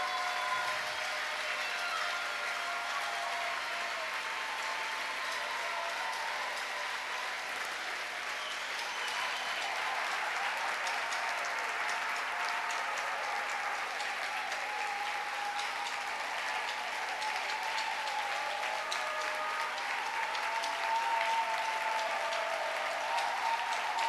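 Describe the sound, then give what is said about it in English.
A church audience claps for the Lord during a praise and thanksgiving service, a long, steady stretch of many hands applauding at an even level. “Vous allez acclamer le Seigneur. You are going to clap for the Lord.”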